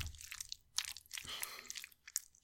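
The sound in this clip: Crunching and chewing of regular bold and cheesy Cheetos mac and cheese: faint, irregular crisp bites and mastication noises in quick succession.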